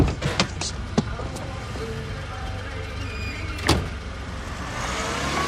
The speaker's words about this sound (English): The taxi drives off and Joe ascends the front steps and heads for the door.